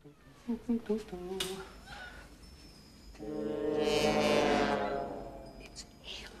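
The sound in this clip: House cat meowing: a few short meows, then one long, drawn-out wailing meow, followed by a brief fainter sound near the end.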